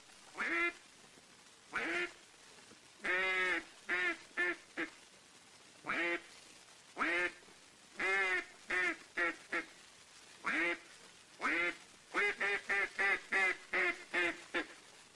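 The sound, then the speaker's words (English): Quacking calls of a wild mallard hen sitting on water, a series of loud nasal quacks in spaced bursts, some single and some in quick rapid runs, rising into a fast chattering sequence near the end. “Here is the call of the wild mallard hen sitting on water.”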